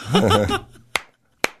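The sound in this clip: Two sharp, crisp hand claps ring out alone after a brief spoken phrase, used to switch on a Clapper device controlling a hot tub nozzle.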